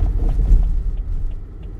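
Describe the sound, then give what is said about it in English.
Construction trucks rumble by on a road as a low, steady, muffled drone with slight swells in loudness and faint wind-like noise, with no talk. “you can hear. hear some of that, some of the construction trucks”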